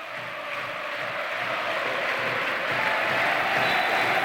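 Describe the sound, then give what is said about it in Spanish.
Crowd noise and clapping in a basketball stadium, a thick, continuous wash of many voices and hands that swells slightly louder toward the end. “El estadio acá, Dico Franulis, es una caldera. Escuchen, escuchen al público.”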